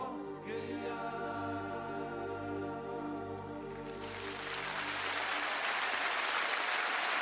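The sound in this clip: Applause from an enthusiastic audience swells as a live song's sustained notes fade, turning into a dense, loud, steady wash of clapping that holds to the end.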